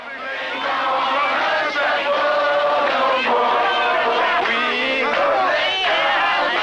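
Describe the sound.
An old recording of a crowd of Howard University students in Washington during the civil rights era, chanting and shouting together in a dense, continuous roar of voices.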